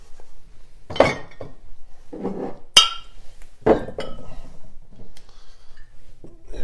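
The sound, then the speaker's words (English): Glassware and bar tools clinking as a counter is cleared while making a cocktail: several sharp, bright clinks and knocks at irregular intervals, with softer rattles between them and no talk. “Right, now let's clear the decks so we can add the Coca-Cola.”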